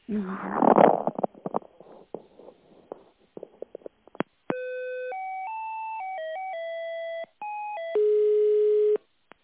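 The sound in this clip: Electronic telephone tones play while a business call is transferred, after a few seconds of rough, crackly noise. Steady tones then step between several pitches, pause briefly, and end with a louder, buzzier tone.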